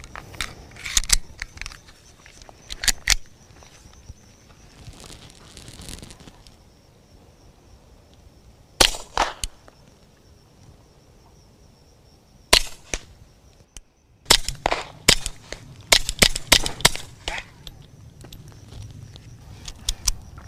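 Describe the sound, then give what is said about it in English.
Suppressed shots from a gun fitted with a silencer, with many sharp, dry cracks, some alone and some in quick clusters, separated by quieter gaps of low handling noise. “That's definitely a fun and quiet gun. The weirdest thing is just being able to sort of feel, because there's no sound, right? You just feel the bullet,”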